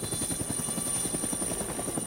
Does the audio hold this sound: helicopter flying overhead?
yes